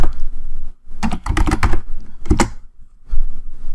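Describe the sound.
Rapid keystrokes on a computer keyboard as a search query is typed, dense clusters of sharp clicks in bursts separated by short pauses, fairly loud with no talk.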